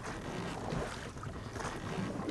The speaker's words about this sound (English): We've been rowing a steady 30 miles a day now for 2 weeks. The river's as broad as an ocean and lonely.